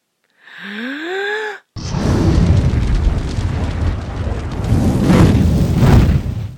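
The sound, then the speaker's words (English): A dragon breathing fire indoors: a short rising, whistling gasp-like intake, then after a brief break a loud, sustained rushing roar that lasts to the end. “Okay, I don't like to breathe fire indoors, but if it'll help you understand the situation...”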